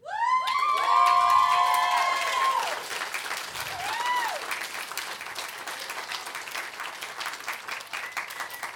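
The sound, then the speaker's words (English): A church audience cheers and applauds. High whoops and shouts ride over loud clapping at the start. The cheering then eases, and sustained applause continues with scattered claps to the end. “I'm glad you cheered. That makes me feel real good.”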